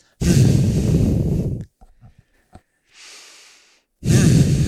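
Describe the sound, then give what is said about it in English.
Forceful exhales during a breathing exercise: a long, loud breath out, a softer one later, then another loud exhale beginning, with faint clicks in the quiet between. “taking a few exhales here. You can do it with me.”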